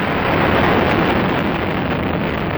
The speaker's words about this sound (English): T-minus 18 seconds and counting engine start. You have firing signal.